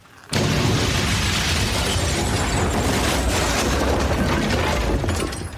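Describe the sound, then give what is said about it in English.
A house collapsing with a boom: a loud, dense crash and rumble erupts suddenly after a brief quiet moment. It holds steady for about five seconds, then tails off slightly at the end, with no talk. “The house fell down and went boom.”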